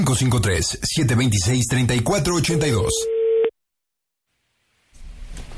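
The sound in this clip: Telephone tone after a call is hung up: a single steady, mid-pitched beep lasting about a second at the tail of loud talk and music, then near silence before faint noise returns.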